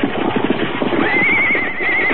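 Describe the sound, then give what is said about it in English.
Runaway horses neigh as they are stopped with a rope tied around a pole. A high, wavering whinny holds through the second half over a steady, dense rumble of movement. “Steady there, your horses. Whoa, whoa up there. Take it easy there.”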